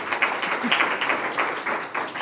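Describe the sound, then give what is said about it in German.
Applause for a writer receiving the German Literature Fund prize for her life's work, a steady, dense wash of clapping that holds at an even level throughout. “Das ist eine enorme Auszeichnung. Applaus.”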